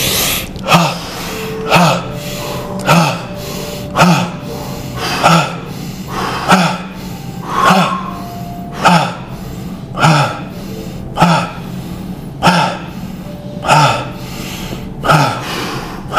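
Bhastrika bellows breathing, a yogic pranayama. Many sharp, loud exhalations follow long inhales in a steady, even rhythm, roughly one breath cycle every second or so.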